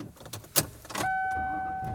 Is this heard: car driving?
yes